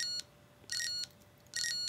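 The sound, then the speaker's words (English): Electronic beeping from a device that types letters by sending them as binary codes: three high, steady tones, each about a third of a second long, separated by short silent gaps. “let's see, stop the beeping.”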